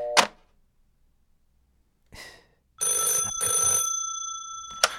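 An old-style telephone rings with an incoming call. A short knock comes first, then a bright ringing burst of roughly two seconds with steady ringing tones, ending in a sharp click.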